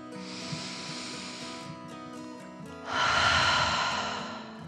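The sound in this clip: A slow, deep breath comes in two long airy hisses, a softer drawn-in breath followed after a brief pause by a louder, fuller whooshing breath.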